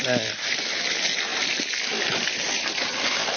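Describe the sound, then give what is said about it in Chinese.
Running water gushes and splashes steadily as a freshly caught soft-shell turtle, lungs included, is rinsed clean in Nanfeng County, a continuous loud wash of water with no pauses. “这个甲鱼抓回来了，就要首先第一步把它冲洗干净， 肺上也要冲干净。”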